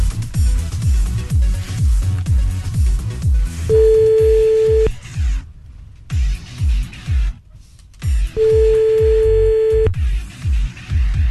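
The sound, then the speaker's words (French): Ringback tone of a phone call being placed: two long, steady tones, each well over a second, separated by a pause of a few seconds and heard over busy, rhythmic background sound. “Allez, on appelle ton mec, c'est parti.”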